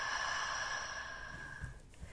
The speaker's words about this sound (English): Again, inhale. And exhale.